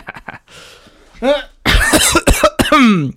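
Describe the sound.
A person clearing their throat into a microphone, a brief rough rasp close to the mic, followed by a person talking.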